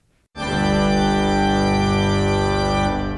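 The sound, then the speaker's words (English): A single major chord on an instrument rings out suddenly after a short silence. It is rich and full, held steady and loud for about two and a half seconds, then fades away. “Which produces major chords that sound like this.”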